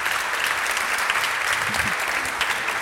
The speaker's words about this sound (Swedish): Ge dem en varm applåd.